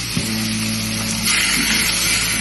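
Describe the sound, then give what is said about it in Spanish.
Firm white salmon sears in a hot pan for a seafood paella, giving a steady, loud sizzling hiss that swells and grows brighter about halfway through. “Y lo que vamos a hacer primero es sellarla. ¿eh? Para que se marque bien. Entonces la ponemos aquí.”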